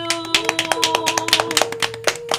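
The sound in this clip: Audience applause for the ladies of the NCNW (National Council of Negro Women), many overlapping hand claps forming a dense, continuous patter at a fairly even, moderate loudness.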